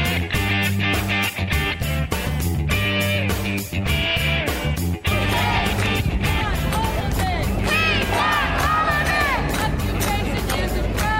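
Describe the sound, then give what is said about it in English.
Protesters chant outside Columbia University, a loud, dense mass of voices that swells and overlaps continuously throughout. “So that's the so-called protesters outside of Columbia.”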